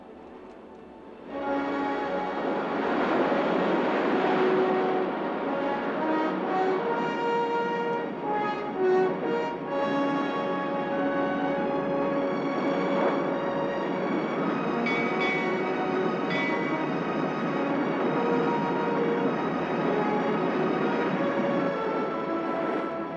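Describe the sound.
Steamship engines run at full steam, a loud, dense mechanical roar with a steady churning rumble and humming tones. It starts abruptly after a brief quiet moment and continues without a break.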